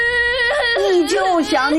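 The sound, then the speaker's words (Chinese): A child cries loudly in a high, sobbing voice whose pitch bends and wobbles through a couple of short wails. “别哭了，别哭了。”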